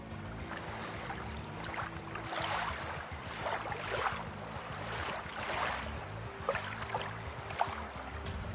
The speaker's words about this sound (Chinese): 我们请我们的工作人员啊，来制造一下我们在游泳时产生了水波纹和浪花的情况下，结果又会有什么不同呢？来，我们制造一些浪花。